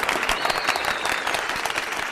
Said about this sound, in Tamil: So அவங்கள நம்ம சேர் பண்ணுற வகையில் சேர் கேர்ள்ஸை கூப்பிடாம ஒன்லி சேர் பாய்ஸை மட்டும் கூப்பிட்டு கிளாப்ஸ் பண்ண போகிறோம்.